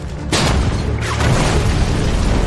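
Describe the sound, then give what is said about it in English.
Enemy artillery shells explode outside a building during a battle: a sudden heavy boom breaks in early, then gives way to a loud, continuous rumbling roar that persists to the end. “Enemy shells drop outside. And the machine guns burst against the walls and windows.”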